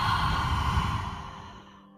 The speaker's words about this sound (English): Let's breathe in. Hold at the top and exhale.